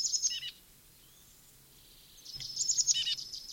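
A titmouse gives high, rapid trills in two bursts: a short one at the start, then a quiet pause, then a longer and brighter run of chirps over a low, steady background hum.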